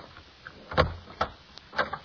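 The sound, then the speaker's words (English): A doorknob being tried and a door opening: a few sharp clicks and rattles with a low knock among them, irregularly spaced and fairly faint, with no voices. “Knock on the door. Try the knob.”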